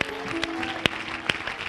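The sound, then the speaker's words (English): A church audience claps their hands, a few sharp, scattered claps standing out over a soft, sustained background hum. “Clap your hands to Jesus.”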